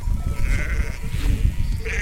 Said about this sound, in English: Up here in the High Sierra, the sheep and a couple of sheepdogs are Beltrán's only company.